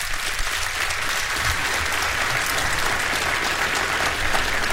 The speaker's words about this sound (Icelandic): Þorsteinn Einarsson, gefið honum gott klapp